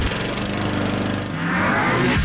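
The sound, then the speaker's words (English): A Gravely lawn mower engine runs in a loud, continuous, rough drone that dips briefly midway and then picks back up. “Take your lawn mowing up a notch with a Gravely.”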